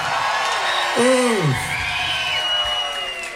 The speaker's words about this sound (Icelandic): Óskar Guðjónsson, gefa honum gott klapp.